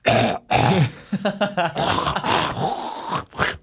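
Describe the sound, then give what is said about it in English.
A human voice imitates someone on a plane hacking up a lung, producing several rough, throaty coughing bursts separated by short gaps. “somebody is hacking up a lung. They're coughing.”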